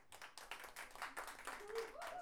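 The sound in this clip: Audience clapping at an evening of payadores, improvised sung folk verse, at El Chancho Seis. A dense, steady patter of many hands runs for about two seconds, with voices mixed in.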